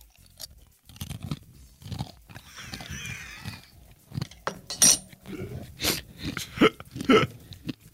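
A man eating a meal at a microphone: irregular chewing, crunching and mouth smacks with occasional clinks of cutlery and dishes, a few louder sharp bites standing out over long stretches without talk.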